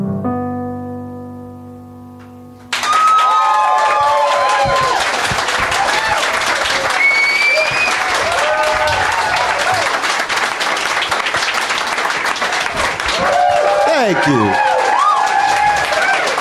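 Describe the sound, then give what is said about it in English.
An audience bursts into loud, sustained applause and cheers for a performer right after a held musical chord ends, with scattered whoops and voices rising over the clapping. “Another nice hand for Jordan, everybody, who was nice enough to join us.”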